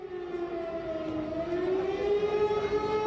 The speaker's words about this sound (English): If you can hear an air raid siren going off in the background, it's because there are activists where I am, next to the Parliament building,